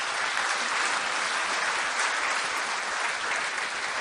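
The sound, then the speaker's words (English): Audience applause after a song introduction at a live performance: dense, steady clapping that holds at an even, fairly loud level for about four seconds, with no voices over it. “And let's give them a round of applause.”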